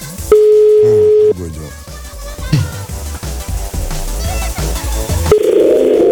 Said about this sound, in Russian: я набираю номер просто. 9-6, так.